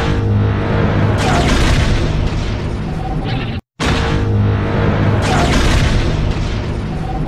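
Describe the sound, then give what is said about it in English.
A Star Wars seismic charge explosion sound effect: a loud, deep, rumbling boom sustained for several seconds, broken by a brief gap of silence before a second swelling boom that carries on to the end. “Oh, the sonic charges. Yes. They're technically seismic charges, but I know exactly what you mean.”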